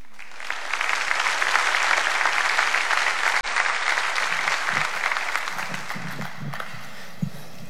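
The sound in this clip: Church audience applause welcoming a speaker to the stage: sustained, dense clapping that stays strong for several seconds, then thins and fades toward the end.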